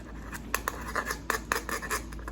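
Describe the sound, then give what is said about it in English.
A pen scratches across paper as working titles are written down, making quick, short, raspy strokes in an uneven rhythm over a low steady hum. “let me just write those titles down”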